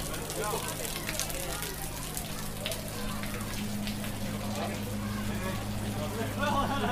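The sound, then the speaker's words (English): Rain falls at the start of stage two of an April cycling race as a continuous, dense hiss with crackling patter. It stays even throughout over a low steady hum. “That was the sound of rain falling at the start of stage two.”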